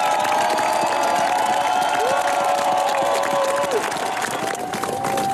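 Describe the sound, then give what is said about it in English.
A large crowd in Oslo roars with sustained cheering, clapping and shouts as the new Norwegian king and royal family appear on the palace balcony after the old king's funeral. The din stays loud and unbroken throughout. “This is the kind of welcome the new king, Håkon VIII, Queen Mette Marit, and the rest of the royal family get as they've just stepped out onto the palace balcony here in Oslo at the end of the old king's funeral.”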